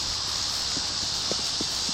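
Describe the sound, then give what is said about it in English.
Wind blowing through tall green sugarcane on a 3,200-acre Louisiana sugar plantation makes a steady, soft, airy rustling hiss. A few faint low knocks sit underneath it. “We begin at Ellender Farm, a 3,200-acre sugar plantation. You can hear the wind in the cane.”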